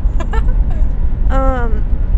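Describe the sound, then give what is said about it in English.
Steady low engine and road rumble from a car driving through Los Angeles fills the whole clip, with a few brief tonal, voice-like sounds over it. “Just driving through LA. With our mics. And a dream.”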